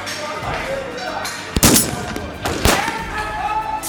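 Gunfire in a shootout: two sharp, loud shots crack out over a dense, noisy bed of battle sound.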